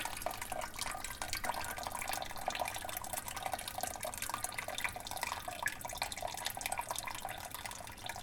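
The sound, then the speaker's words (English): Whey drains off in a steady, continuous stream of liquid, splashing and trickling without a break for the whole stretch at moderate loudness, with no talking. “I'm going to drain. There's all the whey.”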